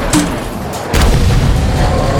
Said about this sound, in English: Engage with grenades, but make sure they detonate in the air.